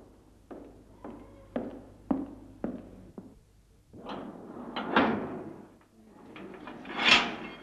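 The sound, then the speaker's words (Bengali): A door is shut by a sentry. Six evenly spaced sharp knocks or steps come first, then longer swelling scraping and creaking thuds of the door moving closed. “একজন সান্ত্রী এসে দরজা বন্ধ করে দিল।”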